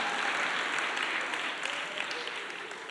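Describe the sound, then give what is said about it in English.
Audience clapping during a church sermon: a dense, steady patter of many hands that holds fairly even and eases slightly toward the end, with no voices over it. “See how I caught that? come on, you ain't clapping loud enough.”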